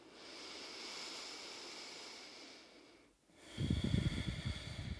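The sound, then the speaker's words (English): Ujjayi-style breathing through the nose during a guided relaxation at home: a long, hissing inhale, a brief pause, then a louder, rougher rushing exhale. Steady and unhurried, with no talking. “Breathing in and out through the nose for that victorious breath.”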